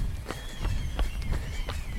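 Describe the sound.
Running footsteps of a runner going uphill, carrying extra weight. Steady, regular footfalls thud out at a brisk pace throughout, over low, rumbling outdoor noise.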